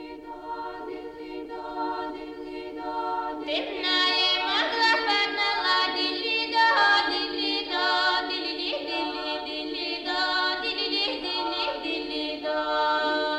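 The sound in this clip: A female vocal choir singing in close, dense harmony, with sustained chords held by many women's voices, swelling fuller and brighter after a few seconds and staying loud and ringing to the end, without speech.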